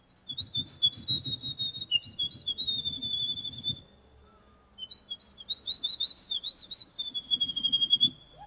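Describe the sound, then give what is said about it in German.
A person imitates a wren's song at a bird-call imitation contest, producing rapid high chirping trills in several bursts with a brief pause midway, over a low rumbling background. “Klingt fast genauso wie ein Zaunkönig.”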